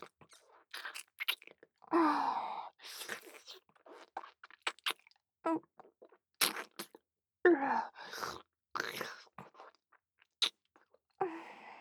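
Wet chewing and slurping from someone eating slimy food come as many short, irregular bursts. The mouth sounds are fairly quiet and separated by brief pauses.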